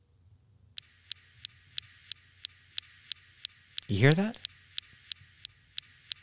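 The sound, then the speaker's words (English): Sharp, regular clicks of laser shots fired at a rock on Mars, evenly spaced at about three per second in a long steady series, with a voice speaking briefly midway. “That is the sound of the laser being fired at the rock.”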